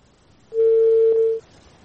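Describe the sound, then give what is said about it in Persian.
A single steady electronic telephone line tone sounds as a phone call disconnects. It holds for about a second at one even pitch, fairly loud and alone, with no voices. “خب فکر کنم تماس ما با بانو شاهی قطع شد.”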